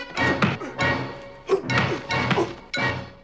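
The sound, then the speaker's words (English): Blows and kicks land during a fistfight between two captains: several dull thuds and whacks arrive in an uneven rhythm, each a short, fairly loud burst of impact. “The two captains fight, exchanging vicious blows and kicks.”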